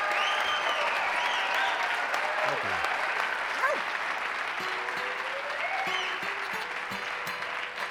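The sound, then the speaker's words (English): Applause from an audience welcoming a country singer onto the stage: a dense, steady wash of clapping that holds at an even, fairly loud level for the full eight seconds. “Ladies and gentlemen, will you please make welcome Mr. Billy Walker.”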